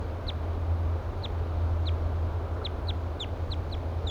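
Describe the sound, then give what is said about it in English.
A wild bird gives loud flight calls: about a dozen short, high, sharp chirps in irregular bursts, standing out over a steady low background hum. “Fluffing its feathers. Giving louder flight calls now.”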